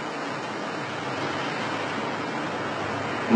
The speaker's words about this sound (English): Let's take a walk along the river here.